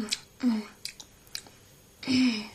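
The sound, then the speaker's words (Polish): Soft, wet chewing of a small taste of poppy seed filling for poppy seed cake, made from poppy seeds cooked in milk. The chewing comes in irregular, intermittent bursts. “A mogę spróbować tej masy? Proszę, tylko troszeczkę. Bardzo lubię mak.”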